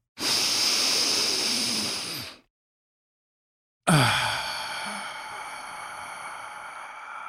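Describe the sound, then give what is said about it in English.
A deep breath: a long, breathy intake lasting about two seconds, a moment of silence, then a slow, airy release that fades gradually. “if you're ready, let's take a deep breath.”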